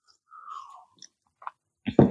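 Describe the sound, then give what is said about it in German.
A person swallowing: a soft throaty gulp, then a few small wet mouth clicks and a louder crunchy mouth burst at the end, with no talk. “Ich schluck kurz.”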